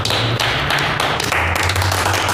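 Hand claps offered in congratulation, a few sharp, irregular slaps over a low, steady hum, fairly loud and with no talk.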